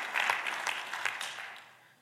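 Church audience clapping during a sermon, a fairly quiet patter of scattered hand claps that thins and fades away by the end.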